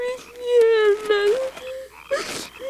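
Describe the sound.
Young Prince Mephibosheth cries and wails in pain over his injured leg, a drawn-out whimpering child's voice with wavering pitch, broken by short breathy sobs.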